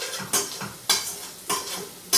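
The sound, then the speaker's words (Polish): Chopped onion sautéing in butter and oil in a pot: a steady sizzle broken by four scraping stirs spaced at regular intervals. “Cebulka powinna być mocno zeszklona, ale nie może być spalona.”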